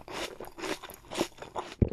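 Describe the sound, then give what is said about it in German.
Crunching sounds come from chewing a bitten apple: a series of crisp, moist crunches in an irregular rhythm, each burst followed by quieter mashing, heard alone without talk. “Und was mache ich jetzt? Du musst ihn im Mund zerkauen.”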